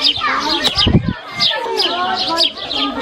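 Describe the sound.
Birds chirping in the yard of a village school where lessons are held outdoors: many quick, high chirps and tweets repeat throughout, mixed with voices.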